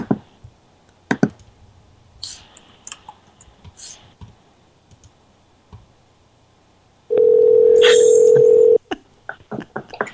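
A steady telephone dial tone sounds for about a second and a half while a phone number is dialed. Scattered clicks and handling noises come before and after it.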